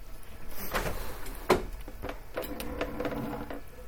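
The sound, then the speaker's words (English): A window being opened: a run of mechanical clicks, scrapes and rattles, with one sharper knock about midway, at moderate loudness and without talk. “Is it warm in here? Should we open? Do you want to open a window?”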